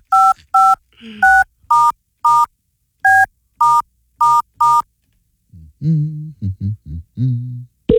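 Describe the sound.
Touch-tone dialing of a telephone number: nine short, loud beeps in a quick, uneven sequence, followed after a pause by a voice speaking.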